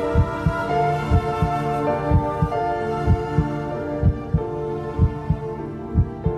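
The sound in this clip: A heartbeat heard from inside the mother's womb thumps low and steady, in soft double beats about once a second. A sustained tonal hum runs beneath it throughout.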